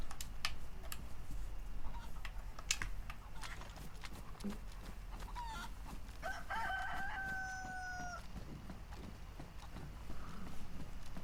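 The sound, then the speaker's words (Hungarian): A rooster crows in a video game, a long harmonic call rising out of scattered sharp clicks, taps and clattering, followed by softer clucking-like sounds and background noise. “Elfutott a csirke.”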